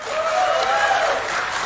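Audience applause from attendees at a political rally for the upcoming presidential elections, clapping in an impromptu poll between two possible candidates; dense, steady and fairly loud throughout.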